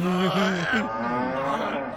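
Cow mooing: one long, low, groaning call with a wavering pitch, loud and sustained for about two seconds before fading slightly at the end.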